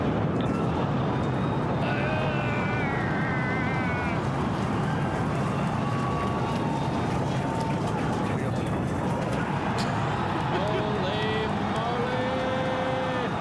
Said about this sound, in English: We're talking about the Starship launch, first ever test flight. Yep, basic Starship launch. 8, 7, 6, 5, 4, 3.